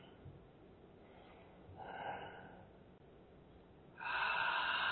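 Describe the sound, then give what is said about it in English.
A deep belly breath drawn in and let out during a guided breathing exercise: a soft, airy breath swells briefly, then a louder, longer rush of breath carries on to the end. “And as you inhale, focus on making that like a belly breath, okay? Nice deep breath. And again.”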